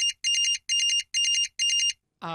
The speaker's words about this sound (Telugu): నాకు ఫోన్ వస్తుందండి, కాస్త మాట్లాడుకోవచ్చా?